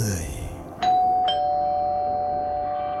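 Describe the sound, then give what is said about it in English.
A doorbell rings late at night with two clear chime strikes that ring on and hold, following a brief voice at the start. “that was the doorbell. Who could that be at this hour?”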